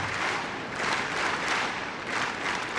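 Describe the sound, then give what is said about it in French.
A tennis crowd claps in rhythm to encourage a Czech player, a dense, moderately loud wash of clapping with gentle swells in intensity across the stretch. “Et le public qui met du rythme, vous l'entendez, qui encourage la Tchèque.”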